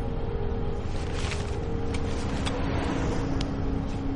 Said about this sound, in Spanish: El coche estaciona ante el edificio.